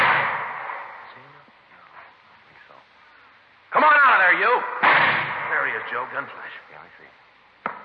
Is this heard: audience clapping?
no